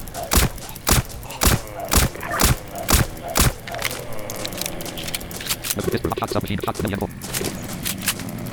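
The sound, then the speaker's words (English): Shotgun firing in a quick, even run of seven sharp, punchy blasts, followed by voices talking over a steady rumbling background. “Remember how far this thing gonna shoot. Shotgun is sucking.”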